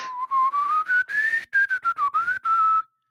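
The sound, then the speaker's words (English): A person whistles a tune alone: a run of many short, detached notes in a clear, bright tone. The melody climbs, dips, rises again, then breaks off abruptly. “and then I could whistle.”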